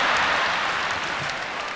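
Audience clapping at a stand-up comedy show: dense, steady applause that fills the whole short stretch at an even level, with no voices over it.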